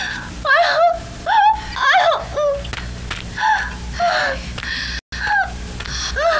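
A person in labour cries out in pain during childbirth, a long run of strained, wavering moans and wails broken by gasping breaths, fairly loud and repeated many times.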